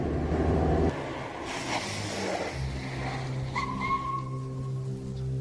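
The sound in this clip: A car that has been driven at high speed pulls up at a deserted spot: a loud rushing roar for about the first second, then a quieter steady engine hum with thin whistling tones above it.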